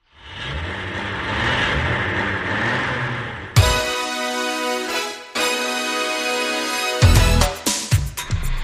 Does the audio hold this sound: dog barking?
no